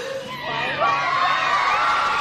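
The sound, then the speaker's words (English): Crowd cheering outside a courthouse after a guilty verdict in a first-degree murder trial: a sustained mass of shouting voices with high whoops and excited yells, holding steady throughout. “Outside, the crowd erupted in cheers.”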